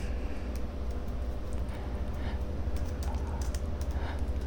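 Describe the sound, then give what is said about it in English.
Slow, uneven typing on a computer keyboard gives many faint key clicks over a steady background hum, with no talking. “Let me see here. It's taking me a while to type.”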